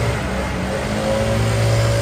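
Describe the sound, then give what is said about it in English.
A gas leaf blower drones as it clears leaves out of a yard in Tampa, Florida. The engine whine is steady and loud, with a sustained buzzing tone that swells slightly toward the end. “It's those annoying blowers that gardeners and residents use to clean the leaves out of their yards.”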